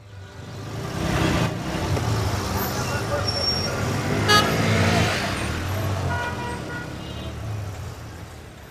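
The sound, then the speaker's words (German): Traffic jam in Kabul, with a dense, continuous roar of road traffic, occasional car horn toots and voices mixed in. “Es sollte ein Geräusch sein eines Staus in Kabul.”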